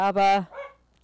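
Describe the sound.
Small dog barking at activity in a hallway, a few short, fairly loud yaps blending with a person talking over them.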